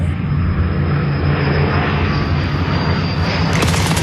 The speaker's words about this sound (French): Dans la nuit, des tirs de la Royal Air Force résonnent dans le ciel.